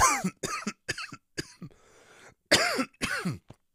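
Several harsh, raspy coughs come in quick succession with a throaty edge, then a short pause, then two more forceful coughs.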